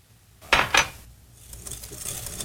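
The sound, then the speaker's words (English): A whisk clinks against a bowl while mixing sugar, flour and buttermilk for a pie filling: two quick metallic taps, then soft, faint scraping and stirring noise. “Now for the filling, we whisk together some sugar, flour, and a good amount of buttermilk.”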